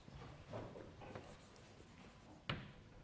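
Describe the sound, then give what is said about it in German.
Handwriting a math formula: faint scratchy strokes come in a few short bursts, with one sharper tap near the end, all quiet and without talk. “So, und jetzt schreibe ich das Ganze.”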